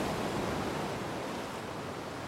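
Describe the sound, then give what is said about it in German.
Rough open sea with waves makes a dense, steady roar of churning water with no pause. “Ein Blick auf offenes, aufgewühltes Meer. In weiter Ferne ist der Himmel über dem Horizont grau.”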